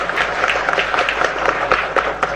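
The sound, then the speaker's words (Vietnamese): Applause from an audience welcoming performers at the opening session of a Buddhist community course: dense, steady clapping that fills the whole clip, loud and unbroken. “Xin quý vị nhiệt liệt hoan nghênh.”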